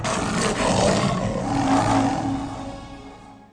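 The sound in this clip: A lion-like roar sound effect plays during a stage play, a loud, broad, rumbling blast that holds steady for about two seconds before fading away.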